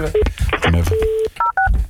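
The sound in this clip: Telephone keypad dialing: two short dual-tone beeps in quick succession, sounding right after a stretch of talk.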